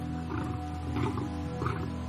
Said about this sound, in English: that's an announcement to all the other lions to let the other lions know this is their bachelor pad and no one better come near here.